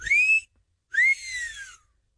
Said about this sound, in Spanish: Bueno, antes que nada, el chiflidito para sus nenas.